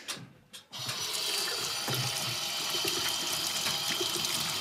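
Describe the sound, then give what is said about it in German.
Tap water runs steadily for hand washing, starting after a couple of brief splashes and then continuing as a loud, even rushing flow, alone with no talk. “Und dann wollen wir Hände waschen wahrscheinlich, gell?”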